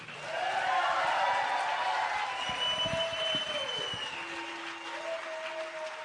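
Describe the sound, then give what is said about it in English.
Audience applause welcoming Pete Seeger, dense clapping from a crowd that swells within the first second and then holds steady, easing slightly toward the end. “And so we want to give a big hand, a rousing welcome for Pete Seeger.”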